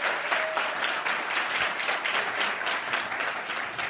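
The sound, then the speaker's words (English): Audience applause welcoming an author guest: dense, steady clapping that holds at an even loudness for the whole stretch, with no voices. “So let's give him a warm welcome.”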